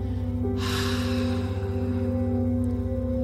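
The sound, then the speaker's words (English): A single deep breath drawn in as part of a guided relaxation exercise, with the shoulders lifted toward the ears to release tension, a soft airy rush heard once over a low, steady musical drone. “Would you take a deep breath in, but this time bring your shoulders to your ears hold it, that's where the tension is, and release it with bringing your shoulders down.”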